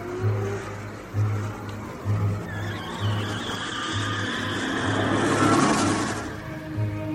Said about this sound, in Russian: Милицейский автобус отправился в путь.